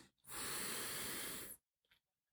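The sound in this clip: A single slow, deep breath taken to calm down, a long steady airy hiss that swells and holds for over a second before stopping, fairly soft and heard alone, followed by a faint brief sound.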